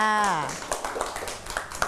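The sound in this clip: Children clap for a classmate's drawing. A brief voice with falling pitch opens, then a few light, scattered claps follow unevenly.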